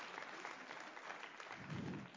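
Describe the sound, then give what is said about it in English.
A church audience claps in soft, steady applause, a dense patter of many hands that stays fairly even throughout. “Yeah, go ahead and clap that one up.”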